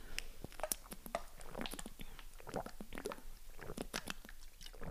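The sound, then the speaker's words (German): Someone takes a sip of a drink, heard as quiet, wet mouth noises with many small clicks and soft swallowing sounds spread through the stretch. “Ich muss mal kurz einen Schluck trinken.”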